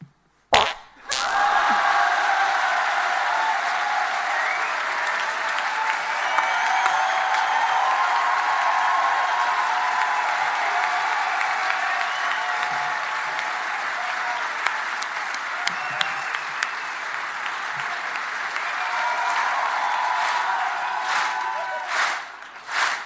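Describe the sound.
A live audience at the Bataclan gives a long, loud burst of applause and cheering. It swells in after a brief quiet start, holds as a steady roar for about twenty seconds, then trails off with a few scattered claps.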